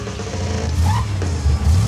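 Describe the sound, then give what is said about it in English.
A muscle car's engine revs at a red light, giving a deep, continuous rumble that swells a little in loudness, with no talk. “a guy in a muscle car pulls up next to him. The guy nods and revs his engine.”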